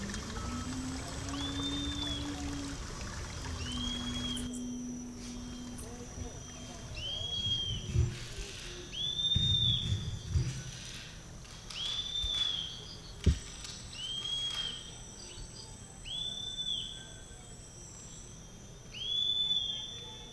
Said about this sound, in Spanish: escuche zumbidos y motores, cantos de pájaros y pausas entre los cantos de los pájaros.